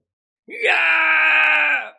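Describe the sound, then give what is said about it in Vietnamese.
A loud, sustained, anguished scream from the furious spirit of a beheaded enemy, full of resentment and humiliation: a single cry of about one and a half seconds that rises sharply at the start, holds steady and then fades out. “Nguyên thần người này kêu lớn, tràn ngập không cam lòng và khuất nhục, vô cùng dữ tợn.”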